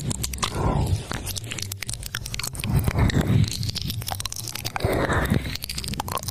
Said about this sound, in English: Here is an example of ear licking ASMR live streaming.